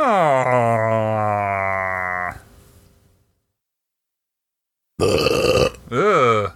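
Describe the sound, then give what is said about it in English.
A thick, drawn-out, low burp rumbles for about two seconds and then fades. A stretch of silence follows, and then a brief voice. “That was a thick burp.”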